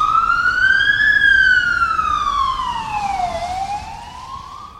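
An ambulance siren wails on its own, a loud bright tone sweeping upward, then sliding slowly down, then beginning to climb again, with strong harmonics stacked above.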